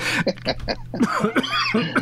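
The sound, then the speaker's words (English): A coughing fit from someone choking: many loud, rapid, harsh coughs follow one another in an uneven burst, heard alone without talk. “Excuse me. Uh-oh. Now you got me choking.”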